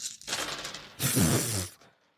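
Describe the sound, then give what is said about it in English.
A big handful of mixed dice of differing types clatters as it is scooped up during a tabletop game, a dense rattling burst in two surges, the second louder, then quickly fading out, with no talk. “picking up so many fucking dice right now”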